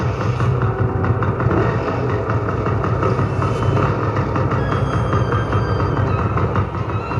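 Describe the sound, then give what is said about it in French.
A car engine runs as a driver tries to start up and drive off a campus, a loud, dense and steady rumble filling the whole clip with no voices. “Je vais encore démarrer, essayer de partir.”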